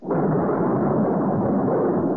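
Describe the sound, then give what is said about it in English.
A storm sounds as a loud, steady roar of broad noise that swells in at once and holds unbroken for about two seconds, with no voices. “The night of the storm. Such a storm.”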